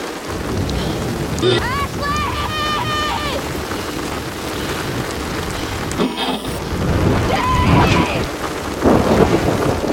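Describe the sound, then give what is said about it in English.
Torrential rain pours down on a building, a dense, loud, unbroken hiss that swells slightly toward the end, with a few brief tonal sounds over it. “Outside, Lisa's camera shows torrential rain showering down on the building as she shines a light over the looming structure.”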